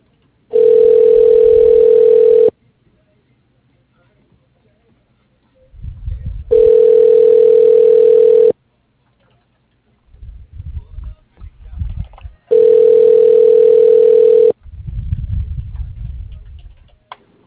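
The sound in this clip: A telephone line tone sounds while a call is transferred to voicemail. Three steady, mid-pitched tones each last about two seconds, separated by gaps holding faint, muffled low rumbling.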